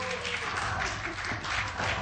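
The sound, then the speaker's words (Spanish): Audience applause after a drill solo: brief, dense and even clapping at moderate volume, steady from start to finish. “aplauso para el solo de taladro.”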